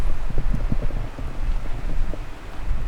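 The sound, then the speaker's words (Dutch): Strong wind blowing hard across the microphone, a low, buffeting roar that rises and falls in uneven gusts with no voices. “Het waait wel wat hard.”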